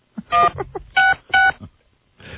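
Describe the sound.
Telephone keypad dialing tones sound as three loud, evenly held beeps, with quieter clicks and bumps between them and a short burst of hiss at the end.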